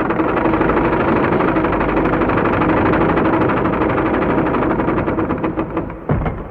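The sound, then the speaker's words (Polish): Whirring mechanism opening a secret stone door in a cave wall: a loud, steady grinding rattle that runs throughout, then eases and ends in a short clunk near the finish. “rozległ się warkot mechanizmu. Zygzakowata szczelina w murze zaczęła się rozchylać, aż wreszcie obie połówki tajnych drzwi zupełnie się rozsunęły”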